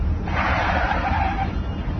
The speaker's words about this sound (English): I'll do a U-turn.